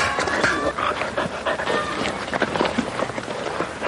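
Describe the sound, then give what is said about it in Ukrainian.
Three-month-old springer spaniel puppies running and playing on a walk, a steady busy stream of panting, quick breaths and scuffling paws at moderate level. “Отак ми щоденно, декілька разів на день проводимо вигул цуценят. Вони бігають, граються. На прогулянках 3-місячні спрінгер-спаніелі вивчають базові команди.”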